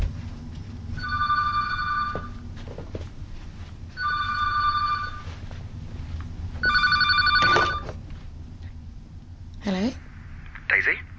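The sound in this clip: A telephone rings in three separate bursts of about a second each, with pauses between them and voices underneath.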